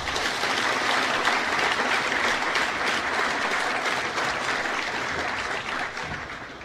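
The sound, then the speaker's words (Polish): Loud, sustained applause greets new students at a technical university's matriculation ceremony opening the academic year. The clapping holds dense and even for most of its length, then eases slightly toward the end. “Poproszę o gromkie brawa dla wszystkich.”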